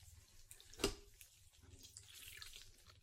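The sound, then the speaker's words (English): Water splashing as a face is washed during a facial skincare treatment, faint, soft trickling and dripping with one sharper splash near the middle, heard without talk. “So what I'm doing now is I'm gonna wash your face.”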